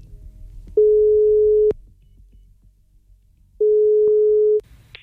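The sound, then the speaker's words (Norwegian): A telephone ringback tone sounds while a call is placed: two long, steady, mid-pitched tones of about a second each, separated by a pause of roughly two seconds, with no talk. “La oss ringe!”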